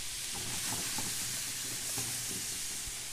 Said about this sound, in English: And into the pan go the onions and the celery and the jalapeno.